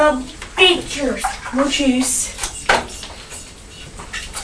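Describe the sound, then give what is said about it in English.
Running water as a woman washes her hands at a tap, the splashing and rushing mixed with clinks and a child's voice talking over it. “Just let Mummy wash her hands.”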